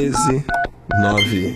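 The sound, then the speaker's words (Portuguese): Touch-tone DTMF beeps from a telephone number being dialed, a quick run of electronic tones with short gaps between them. “Deixa eu ligar pro Azedão aqui, ó.”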